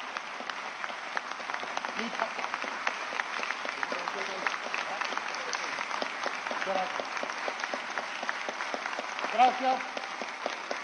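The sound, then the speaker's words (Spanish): Sustained audience applause after a Spanish-language political speech, a thick, even patter of many clapping hands that carries on for several seconds with only small swells. “Gracias por los aplausos. Gracias por los aplausos.”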